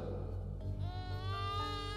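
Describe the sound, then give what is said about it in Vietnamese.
A newborn baby crying in the distance, a thin wavering wail that starts under a second in, climbs briefly in pitch and then holds steady to the end over a heavy low droning hum. “Rồi đột nhiên từ đằng đó có tiếng trẻ sơ sinh văng vẳng truyền tới, tiếng khóc oa oa dấm dứt mãi không thôi.”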